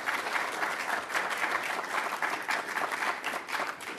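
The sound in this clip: Audience applause welcoming a distinguished speaker at a Commonwealth Club event, a dense, steady clapping that holds at an even level throughout.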